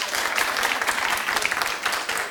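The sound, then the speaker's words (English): A comedy-show audience breaks into applause, a dense, continuous wash of many hands clapping at a fairly even level. “Clap if you've looked at Jennifer Lawrence's hacking pictures.”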